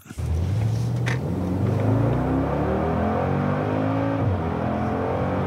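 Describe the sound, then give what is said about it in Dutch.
Engine of a Mercedes G-Class off-roader being driven, a loud, steady mechanical drone that climbs gradually in pitch as it accelerates, then drops sharply near the end before carrying on. “Meijnerd ging rijden in de jarige Job bij Mercedes, de G-klasse.”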